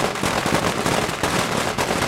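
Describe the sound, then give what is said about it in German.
A ten-metre string of firecrackers goes off during a dragon dance, a deafening, unbroken barrage of rapid, overlapping bangs that stays loud for the whole stretch. “Fast gleichzeitig mit dem Tanz fängt auch eine ohrenbetäubende Knallerei an.”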